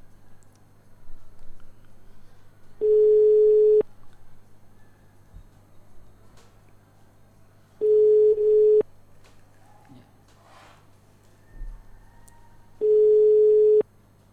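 Ringback tone of an outgoing telephone call that goes unanswered: three steady mid-pitched tone bursts, each about a second long and spaced roughly five seconds apart, with faint background noise between them.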